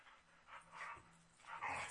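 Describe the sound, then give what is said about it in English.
Dogs play fight with faint, scuffling growls, snarls and short yips that come and go in uneven bursts, with no talking. “you hear dogs fighting in the background? They're play fighting, but they're still fighting.”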